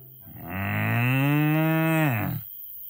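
An ox moos once: a single long, loud, low call that holds a steady pitch for about two seconds, with no other sound around it.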